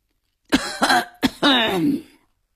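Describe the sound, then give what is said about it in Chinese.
A man coughs and clears his throat in a few harsh, voiced bursts, the last one longer and rougher before it trails off. “寇少龙突然咳嗽了一声”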